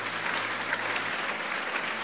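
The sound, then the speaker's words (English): Audience clapping, a dense, even patter of many hands that holds steady and continuous from start to finish. “Are you clapping well or not?”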